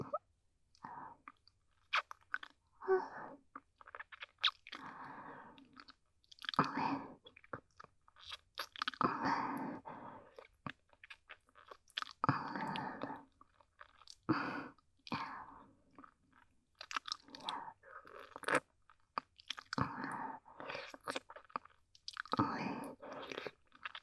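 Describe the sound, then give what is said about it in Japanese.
Wet kissing and mouth sounds: many close, soft smacks and crackly lip noises come in irregular clusters separated by short pauses. They are faint and heard alone, with no talking. “はーい、キスですよ。”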